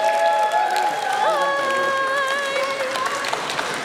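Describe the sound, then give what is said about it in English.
Applause from an audience at the end of a show, a dense, steady patter of many hands that keeps going throughout, with some faint crowd noise mixed in. “And a massive round of applause for Rebecca.”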